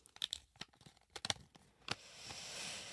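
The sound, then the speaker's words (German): A paper slip is drawn and unfolded, giving a few sharp, crisp crackles and rustles in the first two seconds, then a steadier soft papery rustle to the end. “Ich ziehe mal den nächsten Zettel.”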